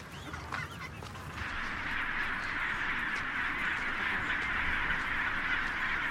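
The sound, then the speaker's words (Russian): A huge colony of thousands of penguins calling: a dense, continuous chorus of overlapping honking, braying cries that stays loud throughout, with no talk. “Он ищет свою семью среди тысяч других пингвинов.”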